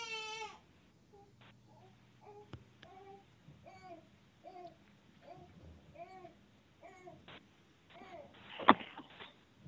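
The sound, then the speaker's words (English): A baby fusses and cries softly. A thin wail opens, then a string of short whimpers and babbling sounds follows at uneven intervals. A sharper, louder cry bursts out near the end. “Can you hear a baby crying in the background, by the way?”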